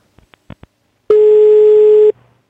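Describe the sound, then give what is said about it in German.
A telephone ringback tone on a call to a political party's office: a single steady, mid-pitched tone holds for about a second, preceded by a few short clicks. “habe ich damals mal bei der CDU angerufen und habe einfach mal nachgefragt”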